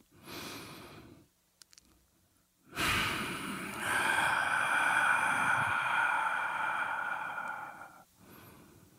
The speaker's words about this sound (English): let's take a deep breath.